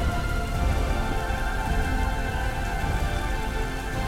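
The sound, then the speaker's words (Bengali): Heavy rain from a storm pours steadily as a dense, even hiss and patter, loud and unbroken from start to finish, with no distinct thunderclap and no voices. “তার সাথে বজ্রপাত সায়ন তাড়াহুড়ো করে library থেকে বেরোতে গেল আর সাথে সাথে রাস্তার ওপর একটা বড় গাছ আছড়ে পড়ল ঝড়ে”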